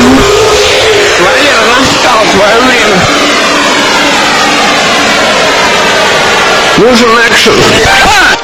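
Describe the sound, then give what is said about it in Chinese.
A car engine revs as the accelerator is pressed, a loud, sustained roar whose pitch wavers and swings, with a sharper surge near the end. “我们先把油门踩一踩。”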